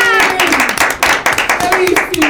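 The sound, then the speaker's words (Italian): A small studio audience on a radio show gives brisk, dense applause. Loud, rapid overlapping claps arrive in bursts over a faint voice. “Intanto un bel applausino lo rifacciamo.”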